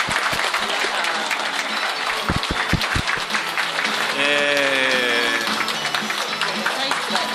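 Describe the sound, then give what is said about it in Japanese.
An audience applauds to welcome the market vendors. The steady clapping lasts throughout, with voices over it partway through. “拍手でお迎え。”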